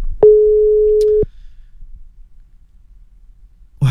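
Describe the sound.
A telephone call tone sounds once as a single steady, mid-pitched beep lasting about a second, followed by quiet line noise and a brief rustle at the end.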